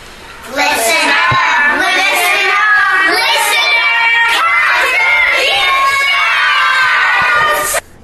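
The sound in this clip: Children from an after-school class cheer and shout together in a loud, continuous burst of overlapping high voices that lasts about seven seconds and then cuts off abruptly.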